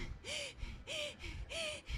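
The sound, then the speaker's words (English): A throat singer's voice imitates a saw moving back and forth: three rhythmic, breathy rasping pulses, each carrying a low arcing tone, with a fourth pulse starting at the end. “Oh yeah, you're right, it's a saw. You can hear it because it goes”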